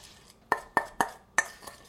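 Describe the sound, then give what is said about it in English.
A spoon clinks against a bowl while dry ingredients, sugar and spices for roasted almonds, are stirred together: four sharp, ringing taps at uneven intervals, with a fainter one after, and no talking. “And I'm gonna stir that up. And all the dry things, kind of mix them together.”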